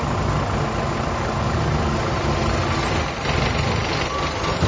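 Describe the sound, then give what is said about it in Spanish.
City bus engine idling at a bus stop: a steady, loud, low diesel rumble with a broad hiss on top. It holds evenly for the whole stretch, with a brief dip near the end, and no talk. “Estamos en una parada de colectivos. Ahora voy a intentar subir a uno.”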